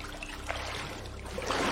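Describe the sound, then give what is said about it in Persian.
Water trickles and drips as someone climbs out of a bathtub, a steady wet splashing that swells slightly louder toward the end. “گرالت از وان بیرون میاد.”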